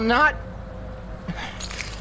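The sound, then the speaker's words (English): Keys jangling in a few brief metallic clinks near the end, after a short burst of voice at the start, over a low, steady background. “I'm not giving you these keys, Richter.”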